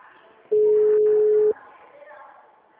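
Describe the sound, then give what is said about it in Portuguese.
A single steady ringback tone sounds while a bank agent phones a client, one loud, even beep lasting about a second, then a faint, low background. “tentando ligar para aquela cliente”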